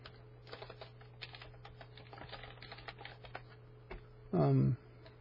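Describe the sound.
Fingers tap quickly and irregularly on a computer keyboard while a name is typed into a search. The clicks are soft and dense, and a brief voice cuts in near the end.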